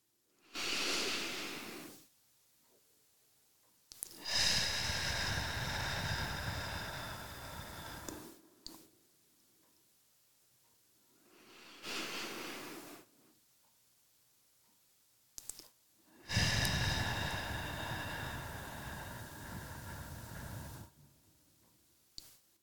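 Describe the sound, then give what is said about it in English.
Two slow, deep breaths, each a soft inhale followed by a longer, heavier exhale, separated by silent pauses, with no talking. “will you just take a couple of deep breaths with me? Just two deep breaths with me.”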